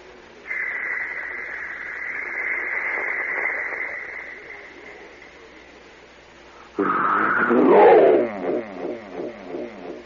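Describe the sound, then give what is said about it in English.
Echo-laden sound effect of a ship being launched: a steady, high, sustained whine holds for several seconds, then a sudden loud rushing burst erupts and trails off in a string of fading echoed repeats. “That's the echo. That's the sound of a ship being launched. There's a long pause between the cocking of the mechanism, and then zoom, off he goes.”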